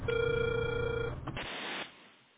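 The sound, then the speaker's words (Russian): Telephone ringing tone while dialing, a steady buzzing tone held for about a second, then a brief rush of hiss that fades out. “Алло, здравствуйте. Продолжаю дозвон.”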